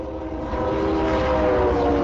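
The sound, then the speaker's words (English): A freight train carrying livestock, grain and other goods passes through Denison with a loud, steady rumble and droning tones that hold evenly throughout, with no voices. “Trains come and go all day long in Denison, carrying livestock, grain, and other goods.”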